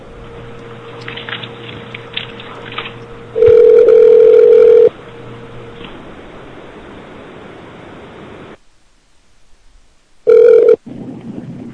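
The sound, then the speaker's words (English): Skype call tones: a steady low dial tone hums under hiss, then a loud sustained tone blares for over a second, and after a near-silent gap a second short loud tone sounds. “We're gonna call you back, sir. Call him, damn Skype.”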